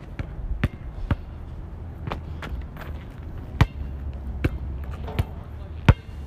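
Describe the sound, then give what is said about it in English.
A basketball is dribbled in a series of sharp, punchy bounces at uneven intervals over a steady low rumble, with a few hits standing out louder than the rest. “Nice layup. Don't dribble too hard.”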